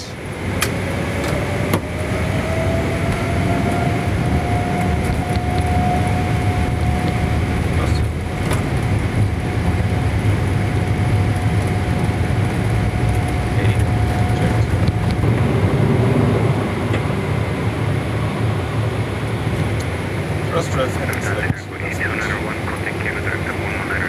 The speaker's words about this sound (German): die beiden Schubhebel nach vorne gedrückt und wir sind gestartet.